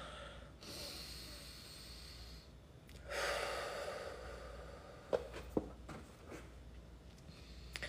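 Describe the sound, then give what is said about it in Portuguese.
A breath is drawn in and let out slowly during a guided meditation exercise. A soft, airy rush swells partway through and fades, then a few faint clicks follow. The sound is quiet and no one speaks. “Liberando, liberando e desativando. Inspira e solta.”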